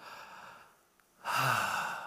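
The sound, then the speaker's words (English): A group at a prayer gathering takes a deep breath in and out together, a soft airy hiss that dips quiet before swelling into a louder rushing exhale. “can we just maybe just start our time together just by taking a deep breath in and out? Let's do it together.”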